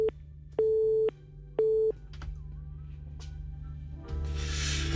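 Telephone busy tone after a call has been hung up: a few steady mid-pitched beeps in even pulses over a humming line, followed by a stretch of rising hiss and noise.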